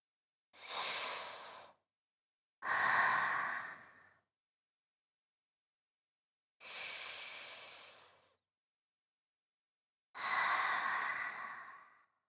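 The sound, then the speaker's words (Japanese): Four slow, deep breaths, airy and hissing, are drawn and released during relaxation, each lasting over a second with long quiet pauses between them. The breathing is soft and heard alone. “そのまま深呼吸して、リラックスしてくださいね。”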